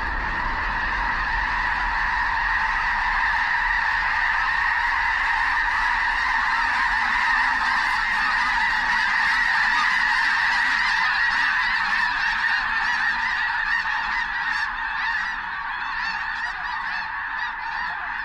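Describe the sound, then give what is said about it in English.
A flock of migrating blue geese honks from a flooded field near Brampton, South Dakota: a dense, continuous chorus of nasal calls, loud and overlapping, swelling slightly midway and thinning a little toward the end. “Ted Mack caught up with a flock of migrating blue geese resting on a flooded field near Brampton, South Dakota. But the flock soon gets wind of the intruders and takes wing north to new waters.”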